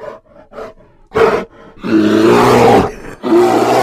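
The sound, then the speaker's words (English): Grizzly bear roaring in conflict: deep, loud, rasping bursts with rough growling. Softer grunting sounds come first, then two long, powerful roars separated by a short pause. “It's the roar of a grizzly.”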